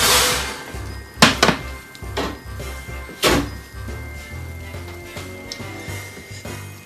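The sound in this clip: A green bean casserole dish topped with onions goes into the oven with a few sharp clunks and knocks of cookware over a low rumble, followed by softer clatter.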